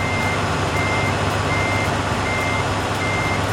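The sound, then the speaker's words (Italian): A truck reversing sounds its warning beeper, regular high beeps repeating over a loud, continuous engine rumble. “Ma che ci fa qui il camion della Lego?”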